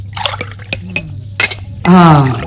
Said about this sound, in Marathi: तिला पाणी दे बरं का प्यायला।